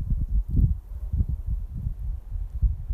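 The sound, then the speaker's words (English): Wind gusts through cedar trees near a highway, a low buffeting rumble that swells and eases in uneven pulses. No voices are heard. “crying next to some cedar trees with the wind blowing. I-25 in the background.”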